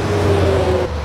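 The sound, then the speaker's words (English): Cars passing on Highway 70 make a loud, steady roar of tyre and engine noise with a low hum underneath. The sound lasts only a moment. “That's the sound of thousands and thousands of cars passing the new Real Talk Radio location every single day. We've just relocated to a prime spot on Highway 70”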